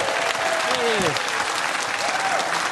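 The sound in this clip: An audience claps steadily as a guest comes on stage, a thick even wash of applause with a voice briefly rising over it.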